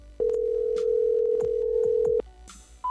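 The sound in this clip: A telephone tone at the start of voicemail playback: a steady, loud, unbroken tone held for about two seconds, then a short higher beep just before the end.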